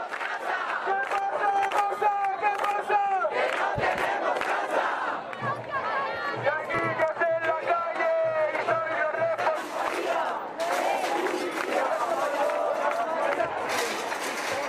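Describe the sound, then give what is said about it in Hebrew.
Protesters at a housing protest in Spain shout and chant as a crowd, with loud, continuous massed voices and rhythmic cries that swell and ebb throughout. “כן, אז אנחנו שומעים אותם צועקים, זה תוך כדי שמשליחים גדרות ברזל על השוטרים שמנסים לעצור אותם ולפנות אותם מהכיכרות.”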